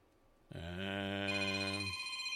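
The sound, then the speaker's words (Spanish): A telephone rings with an incoming call: one continuous electronic ring that starts abruptly after a quiet moment and holds a steady, buzzy, multi-toned pitch for well over a second, heard alone without voices. “Espérame tantito. Déjame contestar esta llamada.”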